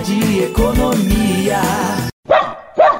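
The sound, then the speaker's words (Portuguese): A puppy barking in a radio advert for a pet and farm supply store, loud rapid yapping followed by two sharp, high yips separated by a brief pause. “Ganhei um cachorrinho por nome de Pitoco.”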